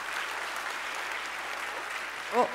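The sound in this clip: An audience applauds to welcome a speaker onto the stage, a steady, even wash of many hands clapping at moderate level, with a brief voice near the end.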